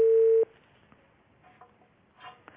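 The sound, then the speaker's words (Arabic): A telephone line tone follows a call that was cut off: one loud, steady mid-pitched tone lasting under half a second, then only faint line noise and a few soft clicks. “الأخ طارق انقطع الاتصال، نحن في انتظار محاولة أخرى إذا أراد.”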